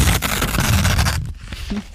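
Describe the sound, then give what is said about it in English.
Paper ripped by hand to make noise for a musical piece: a rough, continuous tearing rasp lasting about a second, then a quieter scrap of rustling. “making noise with paper like this, or ripping paper like this.”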